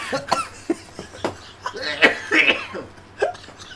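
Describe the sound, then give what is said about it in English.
A coughing fit after a sip of tea went down the wrong way: many short, harsh coughs in an irregular string, some sharp and loud, others softer and breathier, with brief gaps between them. “I'm just having a coughing fit.”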